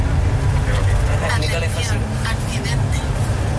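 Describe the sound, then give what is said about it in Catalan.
The interior of a bus hums as vehicles leave the Vallcarca toll, with a dense, steady low rumble of road and engine noise throughout. A voice talks over it. “Darrere tenim del peatge de Vallcarca acaben de sortir dos vehicles. Nosaltres, que estem dins del bus”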